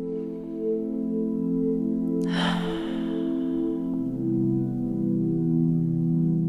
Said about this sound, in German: Ein zweites Mal tief einatmen die Luft einen Augenblick anhalten und beim Ausatmen alle Anspannung loslassen.